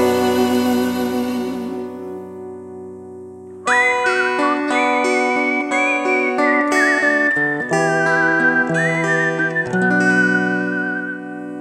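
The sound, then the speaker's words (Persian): A man whistles a wavering melody of sustained, slightly vibrating notes over steady tonal backing, entering loudly after a few seconds of quieter sound and continuing to the end. “صدای سوت اون لبه یه مرد خسته”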